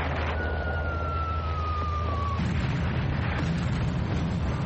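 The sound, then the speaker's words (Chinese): Bombs dropped by bomber aircraft from 5,500 metres fall and explode. A thin whistle slides downward in pitch for about two seconds over a steady low drone, then gives way to a deep, rumbling blast that lingers. “远藤估计蒋介石正在山庄，便从5500米的高空投弹。”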